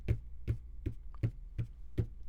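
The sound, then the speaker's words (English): Six dull, low thuds of a hand tapping on a desk that holds an Avantone Pro CV-12 tube condenser microphone on its shock mount. The taps come evenly spaced, with no talk, over a steady low hum. “To do that, I will go ahead and tap on my desk to see how much of that noise it rejects.”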